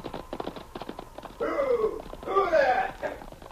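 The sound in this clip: A fast rider's horse gallops in rapid rhythmic hoofbeats, then speaking voices take over.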